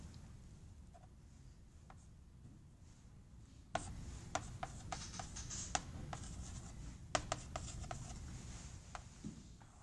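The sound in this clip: A marker scratches faint, dry strokes across a board while a curve is drawn during a technical lecture, with a few sharper taps and rubs over a low hum, and no voices.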